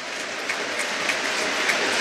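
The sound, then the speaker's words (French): Stadium crowd applauding during a minute of applause at a football match tribute: a dense, hissing wash of clapping that stays steady and slightly swells, with a few sharper claps standing out. “il y a cette minute d'applaudissement qui résonne particulièrement, vous vous en doutez, aujourd'hui.”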